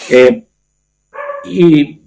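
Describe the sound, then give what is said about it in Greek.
Pet dogs barking, a few loud, tonal barks in two bursts with a short silence between them and no talk. “Ζητώ συγγνώμη για τις παρεμβολές των σκυλιών μου, αλλά. Η φωνή της φύσης δεν είναι κακό.”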